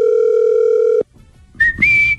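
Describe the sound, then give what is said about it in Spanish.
Telephone ringing tone on a call that nobody answers: a loud, steady one-second tone, a short silence, then a higher tone that steps up in pitch. “¿Para qué fregados quieren el teléfono? Si no van a contestar.”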